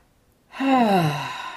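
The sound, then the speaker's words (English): A deep breath released through the mouth in a guided breathing exercise, heard as one long voiced sigh. It begins after a quiet half-second, sinks slightly in pitch and slowly fades. “So let's just take one more conscious breath together, in and out the mouth,”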